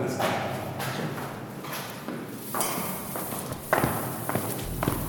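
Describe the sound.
Footsteps climb down into a deep, steep shaft descending about 100 meters, a run of irregular thuds and scuffs over a steady background hiss, with a few heavier steps near the end.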